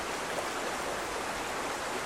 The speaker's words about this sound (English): This is that water. When the ice melts, it cuts through the base and it creates this river.